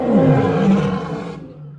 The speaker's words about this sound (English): L is for lion, l l lion.